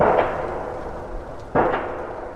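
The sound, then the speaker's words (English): A massive pile-driving hammer pounds steel pilings into the Tanana riverbed at a railroad bridge construction site. Two heavy, sharp blows ring out about a second and a half apart over a steady low rumble of machinery. “That's the sound of a massive hammer apparatus pounding away at steel pilings that project contractor Kiewit Pacific began driving into the Tanana Riverbed last week.”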